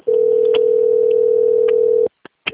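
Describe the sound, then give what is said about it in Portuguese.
Ringback tone of an outgoing phone call: a single steady, mid-pitched tone holds for about two seconds, then cuts off, followed by a couple of brief faint clicks. “Tá só chamando.”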